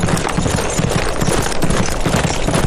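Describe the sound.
Hoofbeats of a cavalry squad's horses setting off at night, a dense, continuous drumming of rapid hoof thuds running steadily throughout at a loud, even level.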